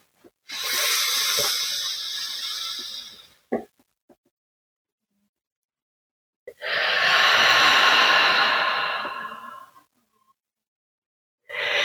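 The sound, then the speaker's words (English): Slow, deep breaths during a guided breathing exercise in child's pose: two long, airy, hissing breaths of about three seconds each, separated by silence, with a few faint short sounds in between. “kind of use that breath to stretch out your ribs, your back muscles, your back of your lungs. And then we'll do a nice exhale. Let's do that one together.”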